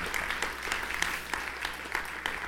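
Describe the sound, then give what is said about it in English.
Audience clapping at a concert gathering: a steady, even wash of many hands applauding throughout, with no voices over it. “That's like an appropriate time to probably clap.”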